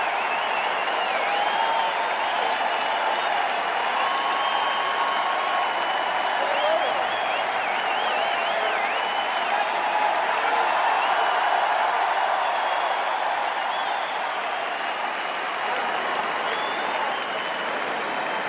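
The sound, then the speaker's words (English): Chicago Cubs fans applaud and cheer at Wrigley Field as a returning player steps in for his first at-bat: a dense, steady roar of clapping that holds level throughout, with a few whistles rising above it. “Nice response from the Cub fans. Getting louder.”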